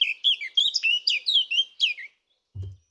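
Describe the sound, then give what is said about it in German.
A blackcap, a songbird, sings in May: a quick, bright warbling phrase of many short, high whistled notes that lasts about two seconds. After a pause, one brief low thud follows. “den grauen Schlüpfer, den sollte man sich merken. Man hört ihn jetzt im Mai fast überall, nicht nur in den Wäldern, sondern auch in unseren Gärten und Parks.”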